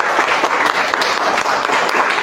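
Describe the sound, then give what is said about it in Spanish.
Audience applause for panelists at a public panel event, a thick, even clatter of many hands clapping loudly and steadily with no break. “Y por supuesto también un aplauso para nosotros mismos, para el público presente.”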